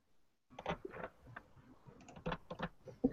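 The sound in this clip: Clicking and an Enter press on a computer keyboard, heard as two clusters of sharp, dry key taps with short gaps between them, ending on one crisp, louder press.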